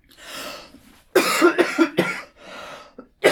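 A person with a cold coughs. Soft breathy sounds are followed by a loud cluster of rapid, harsh coughs, then one more short cough near the end.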